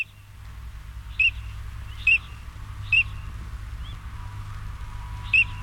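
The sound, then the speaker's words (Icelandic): Short, high whistled calls of a duck: four brief, evenly spaced notes standing out over a steady low rumble of background noise, with no voices. “Nú skulum við, að því að við erum búin að segja þessi önd, sjáum hvort að við þekkjum einhvern mun á hljóðin í þessari önd og bara öðrum öndum.”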